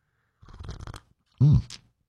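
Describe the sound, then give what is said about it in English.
A sip of freshly refilled hot coffee is slurped in a noisy, airy pull, followed by a second, louder and more voiced burst. “We call it the morning slurp, and I just refilled my cup. So this one's actually going to have a little heat to it.”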